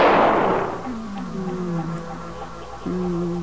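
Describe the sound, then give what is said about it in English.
A single loud gunshot bursts at the start and decays into a lingering tail, followed by low, sustained tones. “Pretty good shot there, Captain Hook.”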